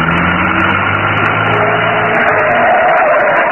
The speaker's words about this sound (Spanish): Las recias y musculosas manos del hombre increíble accionaron el switch de encendido del motor.